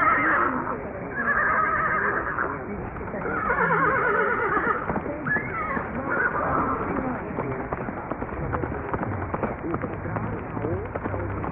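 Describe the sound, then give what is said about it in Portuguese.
A horse neighs in several loud, shrill whinnies during the first half. Rapid, steady hoofbeats of a gallop follow and carry on to the end. “Mas aqui no meu curral, o cavalo é o que não falta.”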